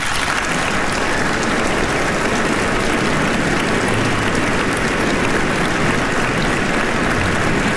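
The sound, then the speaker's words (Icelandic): An audience applauds a national symphony orchestra at a concert in Iceland. Dense, even clapping holds at a steady loud level for the whole stretch, with no pauses or cheering standing out. “Það er Daníel Bjarnason sem stjórnar henni hér í kvöld og ég legg til að við gefum henni gott klapp”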